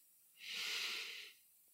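A single deep breath drawn in through the nose during a guided breathing exercise: one steady, airy hiss that swells in and holds for about a second, then stops, with no other sound around it.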